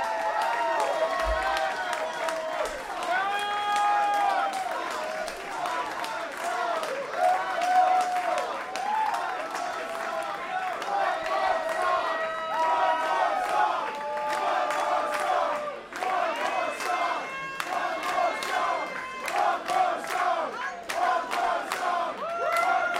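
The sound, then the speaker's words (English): A concert audience cheers and chants for one more song, a steady roar of many voices that keeps going throughout with rhythmic rises of shouting. “The audience is saying everything. One more song.”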